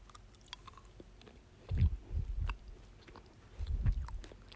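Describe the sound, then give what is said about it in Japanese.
Someone chews a citrus mint gummy candy in a few soft, squishy bursts of mastication, with a short pause before one last chew; no talking. “じゃあ、今取ったらシトラスミントだったからグリーンからいきます。いただきます。”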